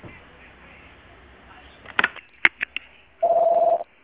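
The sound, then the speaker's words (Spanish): A voicemail beep on a phone line: a steady, mid-pitched electronic tone holds for about half a second. A few short clicks and blips come before it over a faint line hiss. “deje un mensaje en la casilla de voz después de la señal.”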